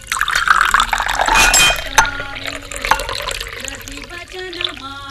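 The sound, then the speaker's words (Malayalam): Water is poured into a glass to wash down a pill, a gurgling, splashing pour that rises toward the end, with a voice faintly present. “ഓ, ഞാൻ വെള്ളം എടുക്കാം.”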